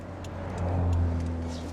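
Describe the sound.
A car rolls across a bridge on the way toward Nannup, its engine a low, steady hum that swells slightly in the middle, with faint road noise and no voices.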